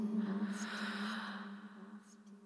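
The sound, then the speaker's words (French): A slow, deep inhaled breath taken during a guided breathing exercise, soft and airy, drawn steadily for about two seconds over a faint, steady low hum. “Et une nouvelle fois, inspire.”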